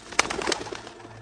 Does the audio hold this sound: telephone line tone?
no